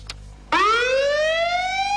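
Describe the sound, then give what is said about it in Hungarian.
A fire station siren sounds in memorial for firefighters who died fighting a fire at a university. It starts abruptly after a brief click, then holds loud and sustained as its wailing pitch slowly rises. “Pintér Gábor főhadnagy temetésével egy időben az ország minden tűzoltó laktanyájában sziréna szóval emlékeztek a múlt héten a műegyetemi tűzoltása közben meghalt három tűzoltóra.”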